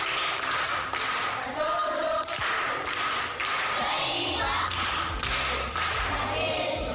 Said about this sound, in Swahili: Makofi kwa shangazi.